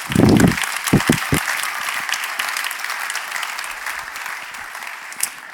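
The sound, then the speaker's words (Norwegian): Applause from a crowd of people clapping: a dense, steady patter that holds fairly even throughout. A few heavy low thumps sound near the start, and the clapping eases slightly toward the end. “Klapp, kom Klapp”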